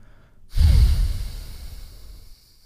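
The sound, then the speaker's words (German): A deep exhale during a breathing exercise: one long breath out that starts abruptly and loudly, then tapers off gradually with a soft, airy rush, with no talking. “Wir atmen wieder ganz bis zum Schluss aus und pressen und atmen wieder ein und lass beim Ausatmen alles los.”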